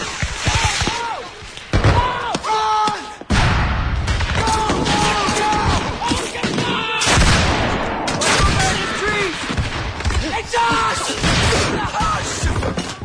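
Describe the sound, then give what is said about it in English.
Gunfire rattles through a night battle where soldiers are fired on by their own side. Dense, rapid shots and heavy blasts keep up steadily, with voices yelling among them. “Fired on by their own side, Swimmer is shot.”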